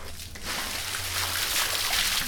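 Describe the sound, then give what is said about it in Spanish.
Water sloshing and splashing as clothes are washed by hand at home, a steady wet trickle and slosh with no talking. “aquí lavando la ropa.”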